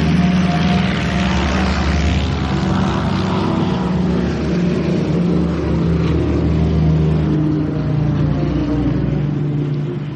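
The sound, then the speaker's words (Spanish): Droning propeller engines of a B-25 bomber taking off from the deck of an aircraft carrier, a loud, steady roar with a heavy low rumble held throughout. “Es el primero en despegar de la pista de aterrizaje flotante en su B-25.”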